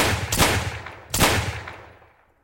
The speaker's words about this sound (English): the other man pulled his gun, firing 3 shots into my chest.